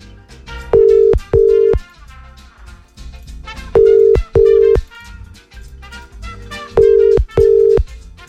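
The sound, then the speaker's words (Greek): A telephone line rings out unanswered: three pairs of short, steady ring tones recur at even intervals over continuous background music. “Ο Σωτήρις δεν το σηκώνει. Για πάμε στο επόμενο.”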